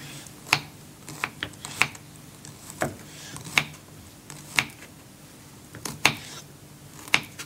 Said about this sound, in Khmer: កាត់តៅហ៊ូចឹងតៅហ៊ូនេះគឺយើងចង់កាត់វាជាដុំទូចទូច